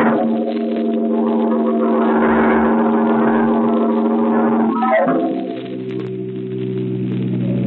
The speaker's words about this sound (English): Johnny, he's driving too fast. It's so dark.